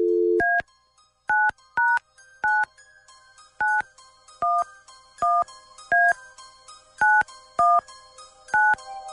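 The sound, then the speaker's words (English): Telephone touch-tone dialing: a short low steady tone, then eleven crisp two-note keypad beeps in an uneven rhythm, each brief and clear against near silence. “Okay, stand by. Dialing at random.”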